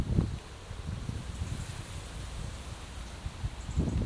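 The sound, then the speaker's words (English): Cold wind blowing into the microphones outdoors: a faint, low, rumbling buffet with stronger gusts at the start and end. “Oh, actually, it's it's cold wind, it's a cold wind. It just fills the lungs. And also the mics.”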